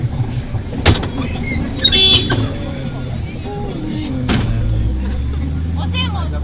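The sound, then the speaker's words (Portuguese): Engine drone and rattling inside a large 15-seat Toyota minibus used as public transport, a steady low rumble with clicks and clunks and voices chattering in the background. “Os bancos são vermelhos, gastos do uso com pequenos buracos aqui e ali, é um veículo muito frequentado. Isto é um Toyota, daqueles grandes, que tem 15 lugares.”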